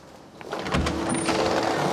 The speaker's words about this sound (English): Joe opens double doors.